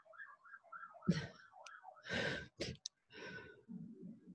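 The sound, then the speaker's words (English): A police truck's siren wails as it drives by, a faint tone warbling up and down for under two seconds, followed by breathy sighs and exhalations. “I'm going to stop for a second. There's a siren. I'm like, survival, and then there's a police truck driving by.”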